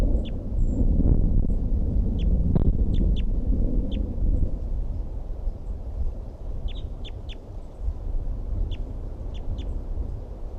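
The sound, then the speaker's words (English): Wind blowing as a steady low rumble through the whole clip, heavier in the first few seconds, with several short, high bird chirps scattered over it. “Wind is blowing now.”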